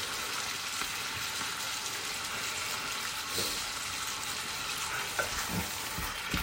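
Sizzling from leftover tomatoes added to a stew pot along with tinned tomatoes: a steady, even hiss of frying that runs throughout, broken by a few faint knocks and stirring sounds.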